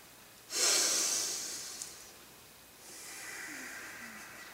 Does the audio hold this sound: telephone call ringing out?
no